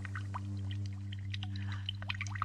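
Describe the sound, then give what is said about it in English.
A stream of water flows inside the TARDIS, heard as faint trickling and bubbling blips scattered over a steady low mechanical hum. “A stream. What's a stream doing in the heart of the TARDIS?”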